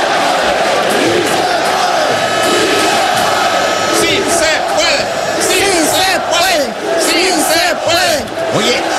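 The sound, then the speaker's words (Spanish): A large stadium crowd chants the famous 'Sí se puede' cheer, a rallying chant often raised when a team is losing. Massed voices roar continuously and loudly, with rhythmic rising and falling swells. “el famoso Sí Se Puede. Sí, sí se puede. Y suena así, se escucha así. Escucha, en un estadio se escucha así.”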